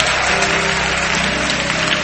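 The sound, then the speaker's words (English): Church audience clapping as an offering to the Lord: loud, dense, sustained applause that keeps an even intensity from start to finish. “Give the Lord a mighty clap offering.”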